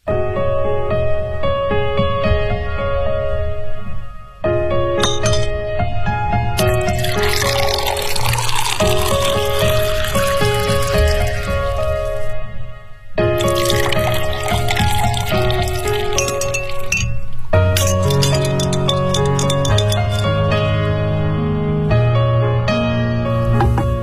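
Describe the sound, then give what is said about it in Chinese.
Cocktail being prepared with crushed ice, heard as loud, continuous pouring and splashing of liquid, broken by a couple of short pauses, with dense wet clatter running throughout. “这是你的鸡尾酒。 哎呦，这么多碎冰啊，难道真是柠檬水加冰块吗？”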